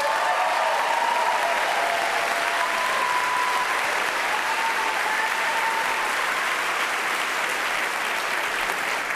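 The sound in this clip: Audience applause welcomes the host, a concert pianist, at a show in Vermont: a steady, dense wash of clapping that holds at an even level throughout, with no voices standing out.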